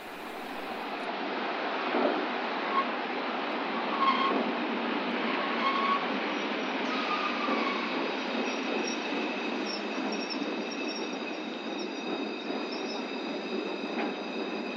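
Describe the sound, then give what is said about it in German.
Trains at the barrier of Bremen main station around 1946–47, where the D-train from Mönchengladbach to Hamburg arrives, a continuous rumbling roar with high squealing wheel tones sustained throughout. “Wir befinden uns mit unserem Mundschirmmikrofon an der Sperre des Hauptbahnhofs, um in Verbindung mit einem Polizeiaufgebot einer Ratsche herbeizuwohnen, die bei den Durchreisenden und hier in Bremen Aussteigenden des D-Zuges München-Gladbach nach Hamburg vorgenommen wird.”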